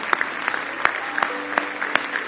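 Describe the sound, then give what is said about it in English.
A church audience claps hands in praise: loud, rhythmic claps land together on a steady beat about three times a second, with fainter scattered claps between. “Give the Lord a big hand clap of praise.”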